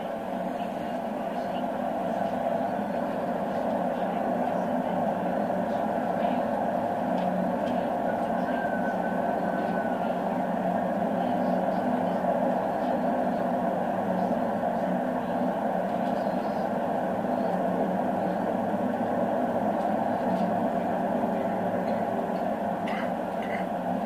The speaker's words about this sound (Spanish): una reserva natural de la Ría de Vigo que se encuentra rodeada por dos autopistas, dos líneas de tren, las rutas aéreas pasan por encima y lo que podemos escuchar en este espacio natural es una densa masa de ruido